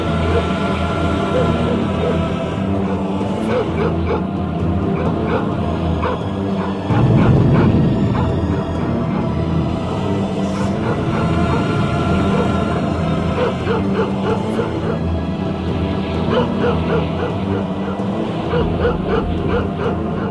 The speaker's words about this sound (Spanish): ¡En este maldito planeta infestado de ladridos!